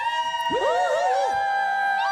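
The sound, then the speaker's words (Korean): An outdoor crowd of fans cheers and shouts together, a loud, sustained roar of many high voices with wavering whoops rising and falling across the mass of sound. “아 어떻게 밖에 계신 분들 함성 한 번만 다시 질러주세요.”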